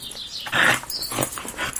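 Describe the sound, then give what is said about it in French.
A dog vocalizes alone in a few short, high-pitched whines and yips, one louder burst standing out among softer ones, with no talk. “J'ai un chien, je l'ai adopté il y a 2 ans.”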